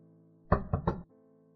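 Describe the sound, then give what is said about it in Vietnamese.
Three quick knocks land on a door in close succession, solid and fairly loud over a faint low hum that continues before and after. “Có tiếng gõ cửa”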